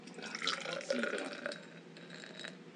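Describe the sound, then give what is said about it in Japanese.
Beer made with Kawachi bankan citrus being poured into a glass, a quiet gurgling and bubbling trickle with soft fizz, faint and fairly even throughout. “先ほどお土産に持ってきていただいた河内晩柑のビールをぜひ社長に継いでいただいて”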